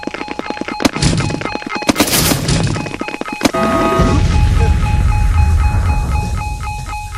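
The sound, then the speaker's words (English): Missiles are fired at enemies in a video game: several sharp bangs and clanking hits come in the first half, then give way to a sustained, loud, rumbling roar. “Let's throw some missiles at these guys.”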